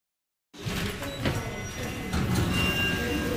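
Low mechanical rumble of an elevator at the Resistance and Deportation History Center in France. It starts abruptly after a brief silence and continues as a dense, steady drone that grows slightly louder toward the end.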